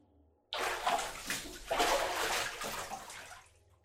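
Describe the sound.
Running water while someone's body is washed, starting with the back: a steady, full wash of splashing and pouring that begins abruptly after a short quiet start, continues evenly for about three seconds, then stops.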